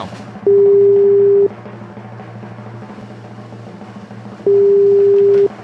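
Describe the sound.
Telephone ringback tone heard while dialing out on a call: two long, steady low beeps about a second each, separated by a pause of roughly three seconds, over faint background hiss.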